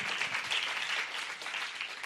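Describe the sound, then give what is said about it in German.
Congregation applause during a church sermon, a soft, even patter of many hands clapping that stays fairly quiet and steady throughout, with no voices over it. “Ja, das ist wirklich ein Applaus mal wert.”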